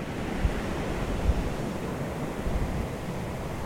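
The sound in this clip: Sea waves washing over pebbles on a Dominican Republic beach, a steady, fairly faint hiss of surf with a few soft bumps rising briefly out of the continuous wash.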